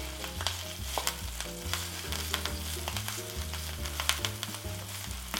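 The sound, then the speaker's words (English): Kale frying in a small pan while a vegan sweet potato casserole is being made: a faint, steady sizzle scattered with quick crackles and pops, heard alone without talk. “Now, if your pan is really small, like my pan isn't very big, just cook the kale in 2 stages. That's what I'm gonna do.”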